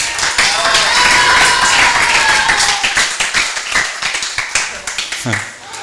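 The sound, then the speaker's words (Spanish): Audience applause at a birthday celebration: loud voices and crowd noise lead in, then quick, fairly regular claps take over, thinning out toward the end. “Y otro aplauso para todos ustedes que son mis amigos y mis amigas.”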